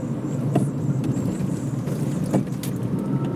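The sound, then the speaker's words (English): Steady, loud road rumble of traffic as a Hyundai car edges around a garbage truck on a one-lane street, with continuous engine and tyre noise and no voices. “using the internet is kind of like watching this Hyundai try to get around a garbage truck on a one-lane street”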